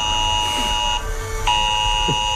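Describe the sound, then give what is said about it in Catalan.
Mobile phone emergency alert alarm warning of heavy rain, a harsh, steady electronic buzzing tone that dips briefly partway through before sounding on, with no voices. “el Cuní diu, l'alerta en els mòbils per les pluges de demà”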